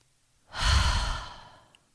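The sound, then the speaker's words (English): One deep breath during a guided relaxation exercise, ending in a long, soft exhale through the mouth that swells quickly and fades slowly like a gentle sigh. It is quiet and heard alone. “Let's take a few deep breaths through our nose. And this time, just exhale through the mouth.”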